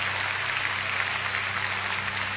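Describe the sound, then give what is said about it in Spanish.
Congregational applause during a church service: a steady, dense patter of clapping held at an even, fairly low level throughout, with a faint low hum beneath it. “Dele aplausos a Él. Gloria a Dios.”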